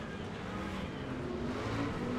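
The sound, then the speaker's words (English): Racing trucks on a race track, their engines blending into a steady, fairly faint droning roar that holds level throughout. “The other two trucks getting into each other, slowing each other down. Here comes Mittag on the inside of one. McCaffrey trying to out-drag race him, but Mittag has the inside.”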